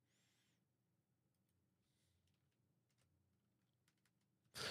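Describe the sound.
Sparse typing on a computer keyboard in Windows: very faint, scattered key clicks over near silence, ending in a sudden loud burst of noise.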